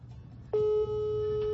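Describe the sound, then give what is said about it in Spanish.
Ringback tone of an outgoing telephone call that goes unanswered: a single steady, mid-pitched electronic ring holds for about a second. “A ver, ahí está sonando, pero no nos contesta Frank.”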